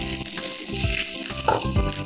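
Food hits a hot wok and sizzles in a steady, bright hiss that lasts the whole clip, without talk.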